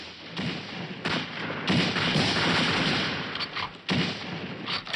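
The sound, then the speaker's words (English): Gunshots from a film's kangaroo shooting scene at its dramatic climax, fired by hunters: a few sharp, heavy thuds come at uneven intervals over a rough, continuous rumble. “The really sort of infamous scene from this film is the kangaroo shooting scene.”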